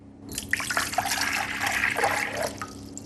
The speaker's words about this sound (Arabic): أولا أسكب الماء البارد، فقط أصغه جيدا.